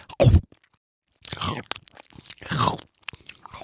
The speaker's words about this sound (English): The anglerfish uses this light to lure other fish and sea creatures towards him. And then, chomp,